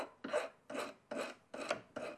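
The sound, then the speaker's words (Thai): A metal file rasping against the tip of a silver rod in five even back-and-forth strokes, each a gritty scraping burst separated by brief pauses. “เราก็เริ่มเลยค่ะตะไบให้ปลายแท่งเงินนะคะมีความแหลม”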